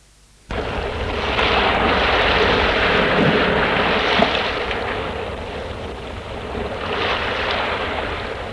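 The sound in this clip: Sea waves wash in a continuous broad rush as a light, cool breeze blows. The sound holds at a fairly steady level with gentle swells and no voices.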